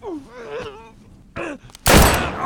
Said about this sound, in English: he shot me in the shoulder